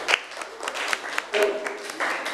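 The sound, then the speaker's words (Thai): Scattered hand clapping from students in a classroom, applauding a classmate; an uneven, moderately loud patter of many hands with a few sharper claps standing out. “นักเรียนเก่งมากเลยปรบมือให้เพื่อนหน่อยค่ะ”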